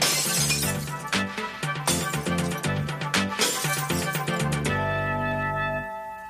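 Glass bottles smashed for recycling: a rapid run of many crashing, jangling breaks, followed by a bright ringing tail that slowly fades.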